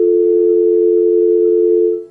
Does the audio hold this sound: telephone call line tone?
yes